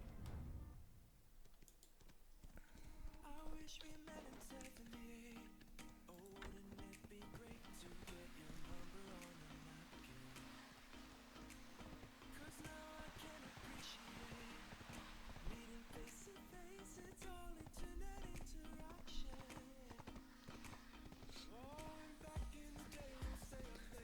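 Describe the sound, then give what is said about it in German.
Horse hooves clip-clop in a video game as the character rides into and through a forest area, a quick steady patter running under continuous game music. “So, wir sind auf dem Weg hier. Jetzt kommen wir gleich ins Waldgebiet. Wir laufen, wir reiten mal durch den Wald jetzt.”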